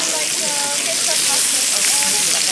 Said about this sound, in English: That's the sound of the sausages sizzling.